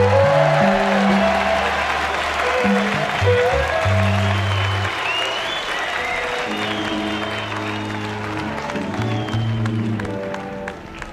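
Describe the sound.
Audience applause greeting a singer who has just been introduced on stage: a dense, steady wash of clapping that lasts throughout, with sustained low musical tones underneath.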